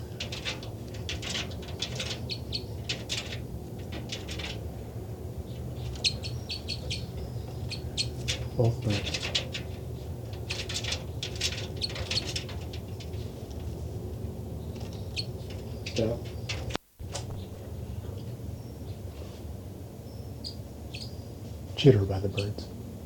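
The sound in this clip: Two birds calling back and forth, trading repeated hooting, cooing and chirping calls across a long stretch, with a few louder calls standing out and people talking at times.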